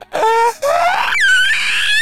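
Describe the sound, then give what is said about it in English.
Shrill screaming and wailing for a menacing comet hurtling toward its target. Loud piercing tones sweep and rise in pitch across a few bursts, with a brief gap after the first cry. “as you hear like the sounds of this terrible screaming and cackling. As this murder comet is just bolting right for you.”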